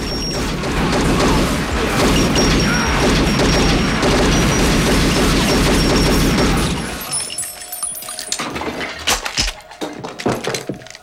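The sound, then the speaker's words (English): Gunfire from a film shootout in which one man shoots seven men: a loud, dense barrage of crashing shots for about seven seconds, then quieter scattered clicks and clatter. “Smith unloads, having shot all 7 men.”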